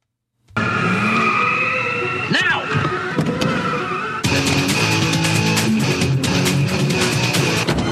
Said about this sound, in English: the driver of the car that screeches to a stop in front of her